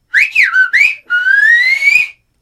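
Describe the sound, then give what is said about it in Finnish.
A person whistles the closing phrase of a whistled-language message: three short swooping notes, then one long tone that climbs steadily in pitch. The whistling is shrill and loud, with no voices. “viheltää nyt sen lopetuksen.”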